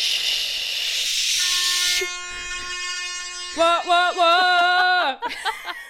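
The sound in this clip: A horn sound effect played from a phone app: a loud hissing burst gives way to a steady multi-tone horn blast, then a wavering, pulsing horn passage before it cuts off abruptly.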